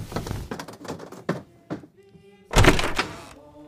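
A door being opened: soft shuffling and knocking sounds come first, then a solid, heavy thunk with a brief low rattle after it.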